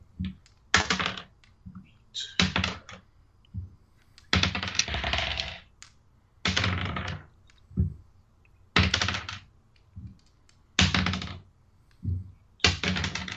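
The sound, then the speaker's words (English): Dice are rolled for fireball damage in a tabletop game: several separate bursts of clattering rattle, each a second or so long, with pauses between them. “He needs to make a dex saving throw. I'm just going to go ahead and roll the damage.”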